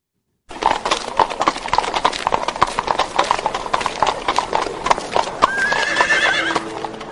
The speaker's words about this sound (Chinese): 乘马车达到朱雀门后